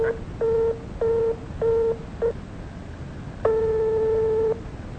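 Telephone busy tone after a call was cut off: short beeps repeat in a steady rhythm, followed by one longer sustained tone, all over a constant line hiss.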